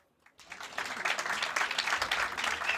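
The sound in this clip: Audience applause breaks out after a brief silence and swells quickly into a dense, sustained clatter of clapping that holds steady to the end.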